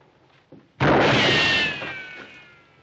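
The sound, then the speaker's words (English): A single loud gunshot cracks out with a sharp attack and a long, ringing decay. “Somebody's shooting at somebody. I think it's us.”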